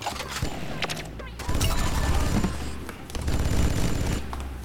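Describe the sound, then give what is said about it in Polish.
Gunfire from a weapon in a video game: many sharp shots in rapid bursts over a booming, dense background, with talk running underneath. “I mogę postrzelać sobie do tego wszystkiego, bez problemu. Do lamp też mogę strzelać”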